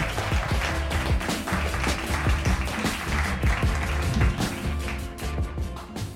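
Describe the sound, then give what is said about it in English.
Audience applause welcoming guests to the stage at a live comedy show. Dense, sustained clapping continues for about six seconds without pause. “would you please put your hands together and welcome to the stage tonight”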